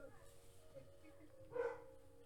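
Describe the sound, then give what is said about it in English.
A dog barks once in the background, a single faint, brief bark rising out of a quiet, low hum. “Sorry if you hear any barking in the background.”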